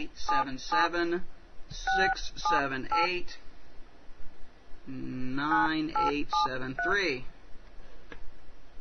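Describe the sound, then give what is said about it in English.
Telephone keypad tones sound as a toll-free number for a restaurant's guest survey line is dialed, a run of short, clipped electronic beeps in bursts, with voice-like sound mixed among them. “So we're going to dial”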